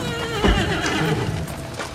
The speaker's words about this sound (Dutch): Er rijdt een koets door zijn straat.